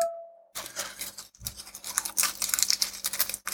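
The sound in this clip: Crushed garlic cloves being peeled by hand, a dense run of dry, papery crackles and small clicks in an irregular rhythm, fairly soft, after a short faint hum, with no talk.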